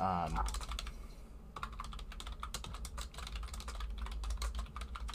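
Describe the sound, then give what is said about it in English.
Typing a message into a chat on a computer keyboard: many quick, irregular key clicks run almost continuously, crisp and fairly quiet. “And I'm going to write it in my chat so you can actually see it, but I'll write it and then I'll say it.”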